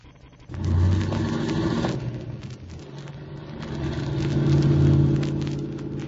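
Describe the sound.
A car engine rumbles and revs as the car drives off. The deep growl swells, eases back, then builds again to a second loud peak.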